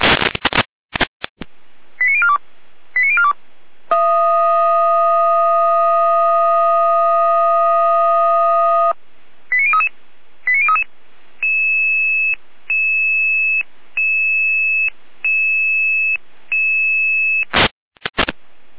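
Fire brigade alerting call tones come over the radio: short bursts of tone sequences, then a steady multi-tone chord lasting about five seconds, more short tone bursts, and a regular series of evenly spaced beeps that ends in sharp clicks.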